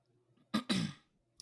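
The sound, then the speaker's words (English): Throat clearing from a man: two harsh, rasping bursts in quick succession, the second longer and rougher, followed by a brief faint catch at the end, with no talk over it. “I was choking on some air a little minute ago, so y'all, sorry if I keep clearing my throat.”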